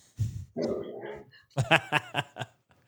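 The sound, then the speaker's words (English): A dog makes excited noises: a few short barks and yips, then a quick run of sharper, higher bursts, loud against near silence. “Let me let this dog out. Yeah, okay. He's feeling it, man. That dog's feeling it.”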